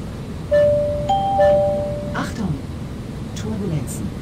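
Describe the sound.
Cabin crew call chimes ring in an aircraft cockpit: a few clear, bell-like tones in overlapping low and higher pitches. They stand out over a constant background hum.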